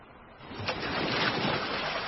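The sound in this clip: Sea waves wash around a small rowing boat on the open sea, a steady rushing surge that swells slightly, with a brief splash early on.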